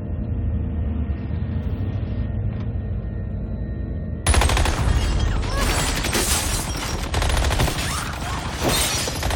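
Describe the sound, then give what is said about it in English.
Squibs fire as simulated gunfire shooting up a real house on a film set. After a quieter, muffled opening, a sudden dense barrage of rapid cracks breaks out and stays loud and continuous to the end. “This is the only shot on the set where we actually shot it up. That's a real house, real squibs firing”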